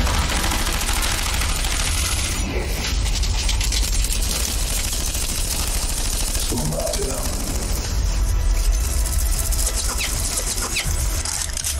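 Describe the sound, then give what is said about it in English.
Sustained gunfire after an order to open fire, a dense, loud, continuous volley of rapid shots that fills the whole stretch without letting up. “Open fire!”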